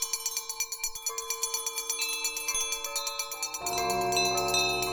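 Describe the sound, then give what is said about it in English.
Many bells throughout a house ring together in a dense, bright metallic jangle of rapid repeated strikes, thickening into a sustained clangor toward the end. “But soon it rang out loudly, and so did every bell in the house.”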